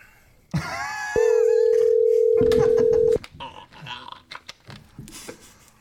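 A phone call rings without being answered: a single steady electronic tone holds for about two seconds at a constant level, with faint muffled sounds before it and scattered clicks and rustles after.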